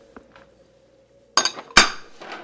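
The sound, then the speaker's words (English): A pot is set down on a stove to begin making glögg. Two loud clanks land close together with a short ringing tail, after a few faint, soft taps; no voices are heard. “we start out with a pot on the stove. You can put it on high”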